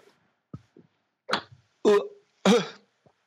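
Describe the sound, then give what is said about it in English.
Coughing after tea went down the wrong pipe: a few short throat-clearing sounds and coughs that grow louder, ending in two strong, harsh coughs with pauses between them. “I've just drank tea. It's gone down the wrong pipe.”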